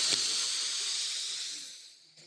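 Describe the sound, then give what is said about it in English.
A deep breath is drawn in as a long, airy hiss, steady at first and then tapering away over about two seconds. “deep breath in”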